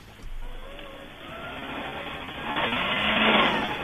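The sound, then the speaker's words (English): Paper shredder grinding through a stack of sheets, heard over a phone line: a muffled, band-limited churning rumble that runs throughout and swells louder toward the end. “Can you put the phone closer to the shredder, please? This is how close it gets.”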